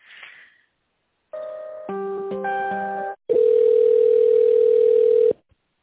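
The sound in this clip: Telephone tones while an office call is being transferred: a brief noisy burst, then layered electronic tones stepping through changing pitches, followed by a single steady tone held for about two seconds before it cuts off.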